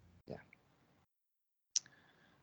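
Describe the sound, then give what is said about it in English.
A computer mouse clicks during online shoe shopping. A few faint, sharp clicks come with a quiet pause between them. “I'm going to click on them right now.”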